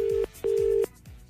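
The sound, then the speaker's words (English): Ringback tone of an outgoing phone call: a steady low electronic tone sounding twice, a short burst and then a longer one, separated by a brief gap. “It's ringing.”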